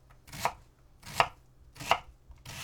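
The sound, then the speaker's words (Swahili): A knife chops a vegetable on a board into 5 mm cubes, with four fairly faint, evenly spaced chops in a slow, steady rhythm and no talking. “Kigeuze ili kikuangalie kiupande na uanze pembeni kukikatakata huku kikiachana kwa nafasi ya milimita 5 ili kutengeneza vipande vya mche mraba ulio na milimita 5.”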